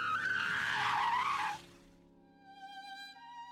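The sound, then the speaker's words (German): Tires squeal on a braking car for about a second and a half, then a steadier engine tone takes over as it accelerates again, quieter than the skid. “Jem nimmt den Fuß vom Gas, nur kurz. Dann beschleunigt er wieder.”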